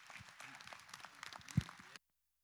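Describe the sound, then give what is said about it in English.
Applause from a church audience welcoming a pastor as his son introduces him: a short burst of clapping that is fairly quiet, with a few low thumps, and it stops abruptly after about two seconds. “put your hands together tonight and welcome my hero, my dad, my father”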